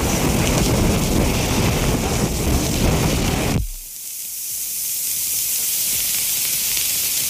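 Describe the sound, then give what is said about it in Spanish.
Strong wind roars and buffets the microphone loudly, drops abruptly partway through, then builds back to a steady, slightly softer rush. “Bueno, no le digo, a ver, le escucho el viento, como ve, tremendo.”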